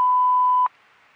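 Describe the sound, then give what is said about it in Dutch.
An answering machine beep sounds as one steady, clear mid-pitched tone lasting over half a second, then cuts off to faint telephone-line hiss. “Dit is de automatische telefoonbeantwoorder van Ilko van den Berg. Je kunt na de piep een boodschap inspreken.”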